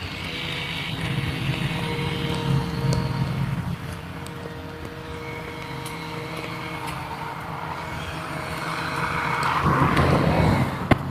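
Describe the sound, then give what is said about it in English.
Small gas engines from a riding lawn mower and a gas-powered trimmer drone across a neighborhood, a continuous buzzing hum that dips briefly midway and then swells louder toward the end. “It's apparently trimmer day. There's a guy on a riding mower over inside the neighborhood here. I'm about to walk by a guy with a gas-powered trimmer.”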